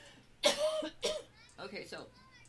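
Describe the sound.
Someone coughs in two sharp, loud bursts, followed by a few softer, rougher throat and voiced sounds.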